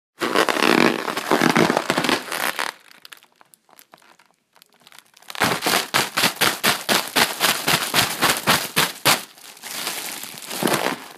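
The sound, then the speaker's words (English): Crinkling and crackling of a deflated Mylar balloon being handled: dense rustling bursts at first, a quieter stretch of sparse crackles, then a quick rhythmic run of sharp crinkles before more continuous rustling at the end. “That was the sound of me playing with a deflated Mylar balloon.”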